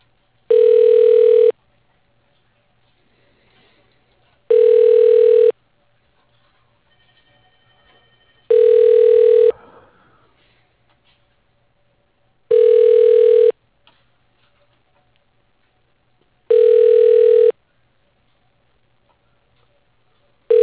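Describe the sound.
Telephone ringback tone while a call is transferred to voicemail: five steady, identical ring bursts, each about a second long, evenly spaced about four seconds apart, with near silence between them.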